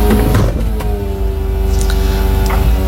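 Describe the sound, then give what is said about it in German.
Soft top roof of an old, very small convertible car opening, a steady mechanical motor hum that holds an even pitch throughout, with a low engine rumble beneath. “Ja, ich habe ein altes, sehr kleines Cabrio, was ich sehr liebe. Und das war das Öffnen des Verdecks meines Cabrios.”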